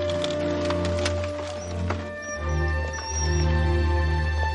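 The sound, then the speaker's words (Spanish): A horse-drawn cart sets off, with hoof clops and a few sharp knocks early on over a continuous deep, rumbling drone. “El carro se pone en marcha.”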